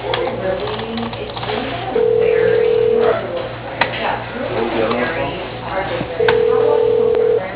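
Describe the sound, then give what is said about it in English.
A telephone line rings while a call to an office is transferred. Two steady electronic ring tones, each about a second long and separated by several seconds, sound through a narrow phone-line band with a voice talking throughout. “For Cheryl with Advertising, your call is being transferred.”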